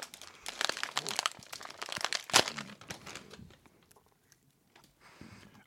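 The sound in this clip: Plastic packaging of a jerky snack crinkles, rustles and tears as it is pulled open. Many crackly bursts come in quick succession, with one sharp loud rip, before the sound thins out to quiet rustles.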